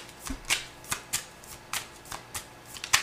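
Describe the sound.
Tarot cards being shuffled: a quick series of crisp, papery flicks and snaps in an uneven rhythm, heard alone.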